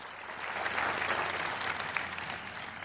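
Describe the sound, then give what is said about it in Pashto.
A standing audience at a US presidential nominating convention gives thick, sustained applause, many hands clapping in a continuous roar that swells slightly mid-way and stays steady to the end. “البته ټول د غونډې ګډونوال ولاړ دي او چک چک کوي.”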